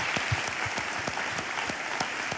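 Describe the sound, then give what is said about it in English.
Applause from many hands clapping in an even, continuous patter, fairly faint and without any talk over it. “That's worth applause.”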